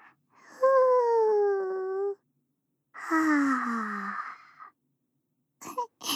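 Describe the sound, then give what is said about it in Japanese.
Slow, deep relaxation breaths voiced aloud by a person: two long drawn-out sighing exhales with a gently falling tone, separated by a pause, then a few brief soft breath sounds at the end. “リラックスリラックス。深呼吸もしちゃいましょう。ふぅー、はぁ、もう一度。”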